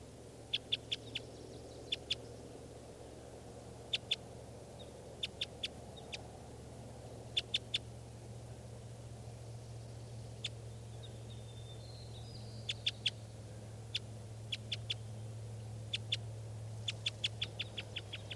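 Calls from a bird perched at the top of a tall spruce: short, high, sharp notes in quick clusters of two to four. The clusters recur irregularly over a steady low rumble.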